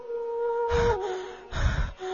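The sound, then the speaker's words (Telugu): Someone winded from running gasps for breath, two heavy, ragged gasps with a quieter breath trailing at the end. “నాకు ఆయాసం వస్తోందిరా, నేను ఇంకా పరిగెత్తలేను.”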